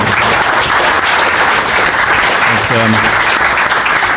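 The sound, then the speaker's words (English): About 1,700 people in the live audience at a show's first-birthday recording applaud loudly. The clapping is dense and sustained throughout, with a voice briefly audible partway through. “Round of applause for embarrassing.”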